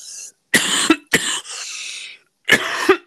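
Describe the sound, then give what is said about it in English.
Several harsh, loud coughs from a person with a strong cough, in short bursts with brief silent gaps and a raspy breathy tail between them. No talk. “The cough is strong right now.”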